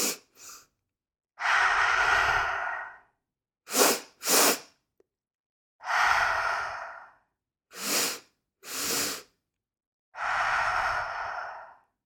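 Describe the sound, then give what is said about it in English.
Rescue breathing demonstrated three times: each cycle is two sharp, short nasal inhales followed by one long, breathy mouth exhale. The breaths are clear and alone, with no talking. “the rescue breath is two sharp inhales through the nose with your mouth shut, and then an exhale through the mouth audibly. And this is a longer exhale.”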